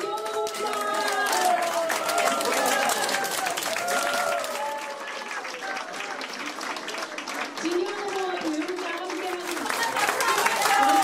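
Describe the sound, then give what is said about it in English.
Supporters cheer and applaud as a Democratic Party candidate is declared winner of the Seoul Gangseo district chief by-election, with loud sustained clapping and chanting voices throughout. “What you're hearing is last night's fanfare as main opposition Democratic Party's Jin Kyo-hun was declared victor of the by-election for chief of Seoul's Gangseo district.”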